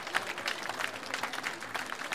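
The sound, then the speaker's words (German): Audience applause at a live outdoor festival event in Klausen, South Tyrol. Dense, fairly soft clapping runs steadily for the whole stretch. “Ein Applaus für das Rai Südtirol Live-Team vor Ort.”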